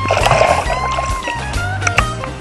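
Water sloshes and splashes as a surfer paddles a surfboard in the sea off Santa Catarina, with a few rhythmic strokes in a short, fairly loud burst.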